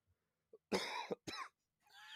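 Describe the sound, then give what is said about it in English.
A few harsh, loud coughs from a person who has been sick, standing alone without talk and followed by a breathy hiss. “but that explains the cough.”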